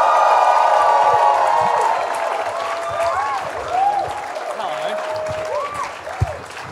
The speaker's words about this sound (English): Can you please put your hands together and welcome Hamish Blake?